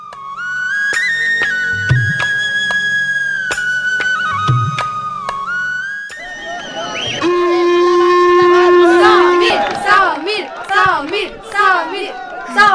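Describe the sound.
Crowd noise at a school football match: loud chatter and shouting from many voices, with sharp whistles cutting through the general din.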